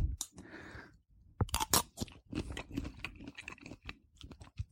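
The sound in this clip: Crunchy chewing of a spoonful of homemade Waldorf salad with celery: many moist, crisp crunches in an uneven rhythm of bites and munching, fairly close and alone with no talking.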